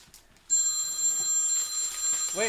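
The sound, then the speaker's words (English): A telephone ringing: a steady, high-pitched electronic ring begins after a brief quiet moment and carries on unbroken at a fairly loud level to the end. “Oh no. The dreaded phone call.”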